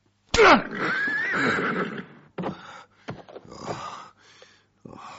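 A horse, Rakhsh, gives one loud, shrill whinny at the start, followed by a few shorter huffs and snorts separated by brief pauses.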